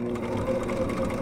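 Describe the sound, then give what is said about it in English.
A home sewing machine running while stitching cloth masks, giving a brief, steady, low mechanical whirring hum with no breaks. “That's the sound of my sewing machine.”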